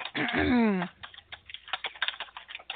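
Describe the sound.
Someone typing on a computer keyboard, a quick irregular patter of many light clicking keystrokes following a brief voice at the start.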